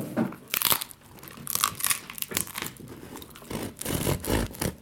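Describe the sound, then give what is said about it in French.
Crisp, irregular crunching of someone chewing the crusty end of a loaf, cut into slices about 1 cm thick; many sharp bites and crackles come in uneven bursts with no talk. “Est-ce que j'ai le droit de manger le croton là parce qu'il n'est pas utilisable pour la pizza Fantasia.”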